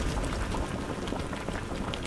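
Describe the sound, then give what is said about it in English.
Maple sap boils down in an evaporator over a stoked wood fire in Geauga County. A continuous, even bubbling hiss holds at steady loudness with no distinct breaks. “Stoking a fire to boil down that maple sap in Geauga County.”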